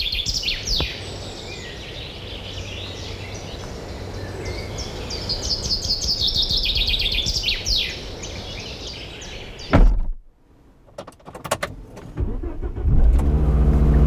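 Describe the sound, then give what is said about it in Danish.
A car drives along with a steady low rumble of engine and road noise, bird chirps sounding above it, until a sharp clunk near the end breaks the drone and a quieter, uneven stretch follows. “Mens jeg igen kører mod København”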